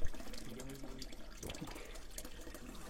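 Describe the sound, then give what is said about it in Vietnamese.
Mineral-rich spring water runs from a crack in the rock into a funnel on a forested mountainside about 7.5 km from Phap Luan pagoda. It makes a steady, faint, splashy trickle with no break. “bằng cái phiểu với cái dòng nước có rất nhiều các khoáng chất chảy ra từ mạch đá”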